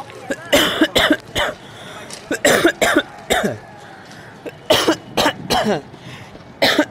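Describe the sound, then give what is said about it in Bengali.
Persistent coughing in several clusters of sharp, harsh bursts separated by short pauses, with a final cough at the end. “বাবারে বেশ ঝামেলা শুরু হয়েছে দেখছি, কাশিটা যেন থামছেই না।”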